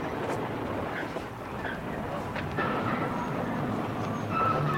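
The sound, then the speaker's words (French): A train pulls into a station, with a steady low rumble of the rolling cars and faint high squeals from the wheels. Voices murmur over the moderate, continuous noise. “Tenez, il entre en gare. Le voici.”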